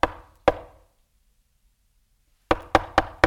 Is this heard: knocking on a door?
yes